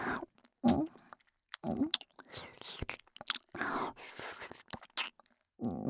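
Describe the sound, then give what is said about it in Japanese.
Wet mouth sounds of an ear being licked: many soft, moist smacks and slurps in irregular bursts separated by brief quiet gaps. “あなたの耳すごくおいしい。ペロペロ。”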